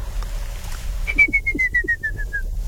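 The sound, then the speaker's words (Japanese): A ruddy kingfisher calls on an island: a rapid run of clear whistled notes, about a dozen, evenly spaced and gradually dropping in pitch, over a low background hum. “他にも面白い生き物がいてね、アカショウビンという鳥は”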